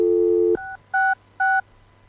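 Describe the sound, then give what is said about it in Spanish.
Touch-tone dialing of a three-digit phone number on a quiet line. A steady dial tone stops, then three short, evenly spaced beeps follow, each a two-note chord. “¿Podemos llamar al 113 a ver si todavía está la voz de...”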